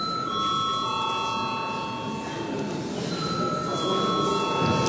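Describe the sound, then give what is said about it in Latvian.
A bell rings to call members of parliament to a vote: a steady, bright metallic ringing with sustained high tones that carries on unbroken through the whole clip. “Lūdzu zvanu.”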